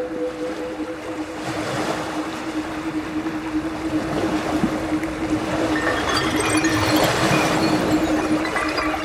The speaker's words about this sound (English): the ocean like cancels everything out.